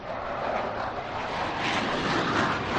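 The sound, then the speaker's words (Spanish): Steady, broad roar of an airplane taking off, heard from the side of the runway. The dense, even rush of engine noise holds at a constant level throughout with no pause. “Bueno, pues estamos escuchando en directo el despegue de...”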